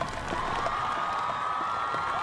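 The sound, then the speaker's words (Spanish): Faint crowd applause mixed with cheering, a steady, even wash of clapping and distant shouts that holds the same level throughout. “Los aplausos son para”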